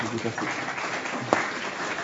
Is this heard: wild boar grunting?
no